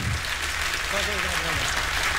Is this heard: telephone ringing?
no